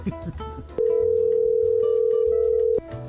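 A steady telephone dial tone rings out as a single continuous, even-pitched hum lasting about two seconds, clear and alone, then cuts off abruptly.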